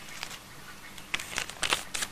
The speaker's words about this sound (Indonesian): Itu deh, lipat kincir angin mau enggak? Bisa, bisa. Bisa. Ya udah, bisa lipat deh.